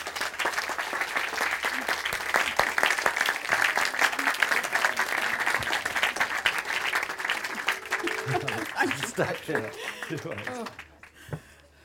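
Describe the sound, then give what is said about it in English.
An audience claps steadily to welcome a speaker onto a stage. The dense applause holds for several seconds, then thins and fades as a voice begins to speak. “now please put your hands together for a big thrill for me and for you”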